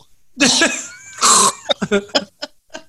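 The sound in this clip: A voice imitates someone hacking in the back of the throat like a cat bringing up a hairball: two long, raspy bursts, then a quick string of short, choppy hacks and grunts.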